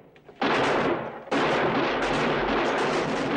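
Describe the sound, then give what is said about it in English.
Gunfire rattles during a fight for a fort's battlements as soldiers fire from different positions: a loud, sustained burst of dense noise, a brief dip, then a second, longer continuous barrage. “Kino and Chris, firing from different positions, get the other two.”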